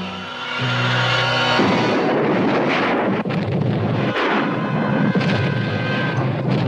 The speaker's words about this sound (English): Storage tank of the Japan Oil Company has exploded.